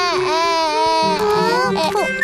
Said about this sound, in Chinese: 别哭了